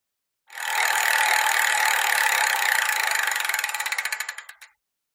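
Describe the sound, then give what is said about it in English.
A prize wheel spins with a rapid, dense clatter of ticks that gradually slows into distinct, spaced-out clicks before stopping after about four seconds, with no talking. “so I'm going to go and spin the wheel and see um, uh, see what today's topic is.”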